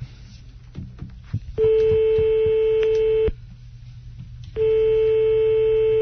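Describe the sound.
Ringback tone on an outgoing phone call: two long, steady, mid-pitched tones separated by a pause, heard over low background noise.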